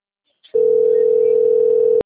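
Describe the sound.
A steady telephone tone from an incoming call from Santander sounds after a brief faint click, holding one unbroken mid pitch for about a second and a half before cutting off abruptly.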